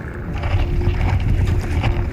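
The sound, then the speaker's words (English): A boat rocking back and forth as it pushes over and breaks through ice, producing a steady low rumble and rough, grinding noise throughout, with no talk. “I'm rocking back and forth. That gives the boat a better chance to keep going over the ice, and it won't just stop. And it'll also let the ice break up a little”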